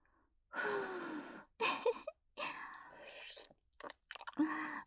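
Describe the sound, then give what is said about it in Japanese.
Breathy puffs of air blown out as if onto birthday candles, a few separate bursts of soft, airy exhalation with short gaps between them, the middle one drawn out longer. “誕生日ケーキのぶっといろうそくみたいですね。ふうふうしちゃおうかな。”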